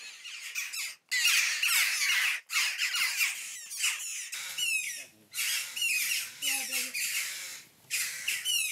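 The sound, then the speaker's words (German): Hungry common buzzard chick begging for food during a feeding, with many shrill, harsh squawking calls repeated in quick, irregular bursts and only brief pauses between them. “Schwächere Stimmbänder, aber mindestens genauso hungrig. Das Mäuse-Bussard-Küken.”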